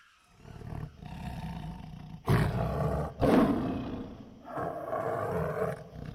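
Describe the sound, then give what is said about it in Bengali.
A tiger roars from afar at night, heard from a tree perch above a moonlit salt field: deep, rumbling roars, with two strong bursts rising out of a steady, low animal rumble. “দূর থেকে গম্ভীর স্বরে বাঘের ডাক শোনা গেল”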